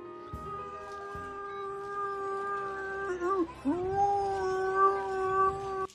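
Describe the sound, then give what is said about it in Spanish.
A human voice imitates a Wookiee roar in a sustained, harmonic, growling howl held for several seconds. Partway through it breaks into a wavering, warbling moan, then carries on. “Si hay algún ruido con el que puedas sorprender a tus amigos y dejarles partiéndose de risa, es el ruido de Chewbacca.”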